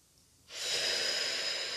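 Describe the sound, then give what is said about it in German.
A single deep inhalation during a guided breathing exercise into the lower belly: a soft, breathy rush that starts abruptly after a moment of quiet and holds steady to the end. “einen tiefen Atemzug nehmen, in den Unterbauch atmen, den Atem stehen lassen”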